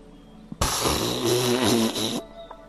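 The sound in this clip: A deep exhalation during breathing exercises: one long, loud, rough blow of air lasting over a second and a half, with a buzzy, slightly voiced edge that fades out abruptly.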